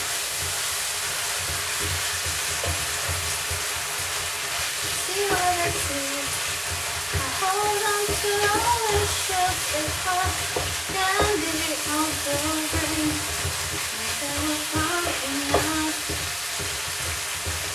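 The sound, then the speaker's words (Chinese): Minced meat stir-fried in a pan, with a steady loud sizzle and constant scraping of the spatula. A voice rises faintly at times underneath. “这个菜，要不停的翻炒这个肉末，让它入味儿，好累呀。”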